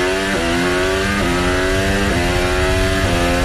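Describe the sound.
Formula 1 car engine screaming through Portier corner into the tunnel, a loud, steady high-pitched whine broken by four quick gear changes, with no talk.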